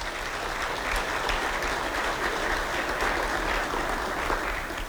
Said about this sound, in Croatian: Molim jedan pljesak za njih.